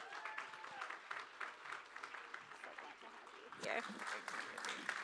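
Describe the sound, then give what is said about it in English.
An audience applauds to welcome a speaker to the stage. The clapping is faint and steady, with voices mixed in, and grows slightly louder toward the end. “So can you guys give Nancy a really warm round of welcome”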